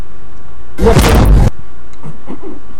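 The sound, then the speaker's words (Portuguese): A firecracker set off by a father and son goes off in one loud, broad, noisy blast lasting under a second, then a few faint scattered sounds follow in near quiet. “Filho brincando de rojão no estado unido.”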